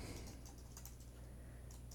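Faint keystrokes on a computer keyboard tap out a few irregular, light clicks over a steady low hum.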